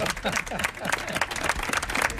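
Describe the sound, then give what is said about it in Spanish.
An audience applauds at a live event in Almagro, Spain, a dense, uneven patter of clapping that carries on throughout with voices mixed in. “Vamos a dar un aplauso, ¿no? Vamos a dar un aplauso.”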